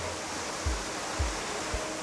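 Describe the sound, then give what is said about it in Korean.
A waterfall pours in the rain near Mount Fuji, a steady, full hiss of falling water with a few soft low thumps underneath and no voices. “빗속의 폭포. 왠지 촉촉한 감성에 젖어듭니다.”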